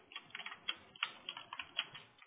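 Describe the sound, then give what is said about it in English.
Typing on a computer keyboard: a quick, irregular run of many light key clicks and taps, faint and steady, with no talking. “I'm just going to go ahead and type in here that we're going to make a bundle package.”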